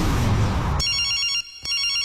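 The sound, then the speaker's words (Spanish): Electronic telephone ringing during a call to a cellphone, a bright tonal ring that begins after a noisy opening, breaks off briefly, then resumes. “Te llamé a tu celular y un vato me contestó.”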